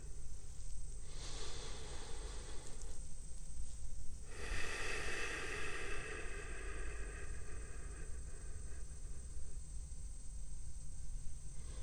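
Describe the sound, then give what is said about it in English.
Slow breathing in and out through the nose: soft, airy, hissing swells, two long breaths rising and fading over a low steady background hum. “Only your nose. You can only breathe in your nose and out your nose. At whatever rate you would like starting now.”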